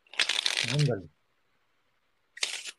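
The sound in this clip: Playing cards being shuffled for a magic trick, with a dense, crisp riffling burst and a voice briefly over its end. After a short silence comes a second, shorter shuffling burst.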